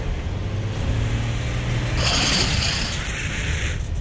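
A car engine accelerating: a loud, steady low drone with road noise that swells into a brighter rushing surge midway, with no talk.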